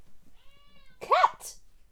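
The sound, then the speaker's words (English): A cat gives a single short meow that rises and falls in pitch, clear against a quiet background. “Cat!”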